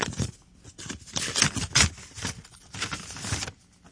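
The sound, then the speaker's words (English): An envelope being opened: several crisp bursts of paper rustling and tearing, uneven in rhythm and moderately loud, with no voices. “And now for the results. I am opening the envelope.”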